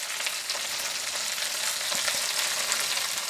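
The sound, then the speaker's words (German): Onions fry in a pan with a steady crackling sizzle, dense bright spitting throughout and no voices. “der Zwiebel ist schon mal gut angebraten”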